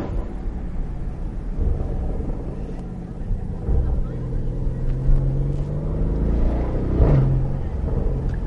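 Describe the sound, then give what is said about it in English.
The twin-turbo 4-litre V8 of a 2025 Porsche Cayenne GTS with sports exhaust burbles while driving with the windows down. It makes a deep, continuous rumble with mild surges in throttle. “Well, that is the noise of a 4-litre V8 twin turbo burbling away.”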